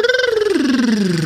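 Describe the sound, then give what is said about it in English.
A voice performs a tongue trill as a vocal warm-up exercise, a rapidly fluttering rolled buzz on a single breath that glides downward in pitch over just over a second. “Tongue trill, incidentally, is when you make a sound like this.”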